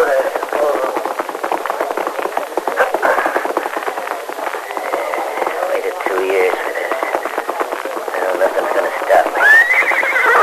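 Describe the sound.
A tiny pony halted at a hitch rack neighs, a high, wavering whinny near the end. Voices and a busy, clattering background run underneath throughout.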